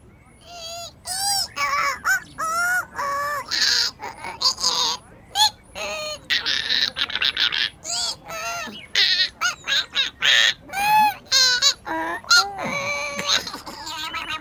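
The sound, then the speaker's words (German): A parrot sings a long string of many loud whistling, warbling calls. The notes are fast and bright, with short gaps between phrases, and run steadily through the whole stretch. “Oh, der Papagei singt.”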